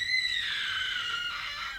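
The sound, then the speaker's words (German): A person screams in a hotel suite, a long, high, sustained cry lasting nearly two seconds. It is fairly faint and wavers slightly in pitch. “Was war das? Hörte sich an wie ein Schrei?”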